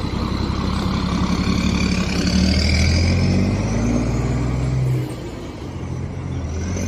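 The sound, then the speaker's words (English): Buses pull away one after another after leaving the Darien Gap, a loud, steady engine rumble and roar that holds for several seconds and then drops to a quieter drone. “They just left the Darien Gap. So that's bus number 9. Slow getting out. There's number 10.”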